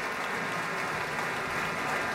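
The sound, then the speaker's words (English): A concert audience applauds an orchestra and chorus with dense, steady clapping that holds at an even level throughout. “More applause for the Pacific Chorale, Alexander Shelley, and the Pacific Symphony.”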